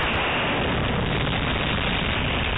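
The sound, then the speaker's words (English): A NASA SLS rocket fuel tank test article rips down its length in a structural test after being pushed past 260% of its expected flight load. A loud, unbroken roar of dense rushing noise fills the whole clip. “That's the sound of the SLS tank ripping down its length after engineers pushed the test article to more than”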